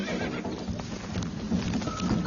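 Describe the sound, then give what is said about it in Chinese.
Hoofbeats and whinnying from a frightened, injured foal running off, the young horse cut and torn with a swollen left hip and both knees; a dense, steady clatter with neighing calls runs throughout. “还没等鲍勃再靠近一点，这匹受伤的小马驹就吓得跑掉了”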